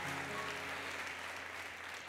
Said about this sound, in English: let's give them a big hand clap